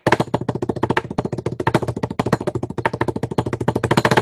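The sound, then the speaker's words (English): A drum roll plays as a sound effect: many rapid, evenly spaced strikes keep a fast, steady rhythm at a fairly constant loudness for about four seconds. “Chris, sophisticated drum roll, please.”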